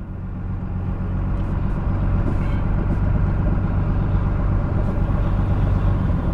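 A vehicle engine at Keegan Ranch in Williams, California, starts a ride, rising quickly into a steady, low rumbling drone that holds evenly throughout.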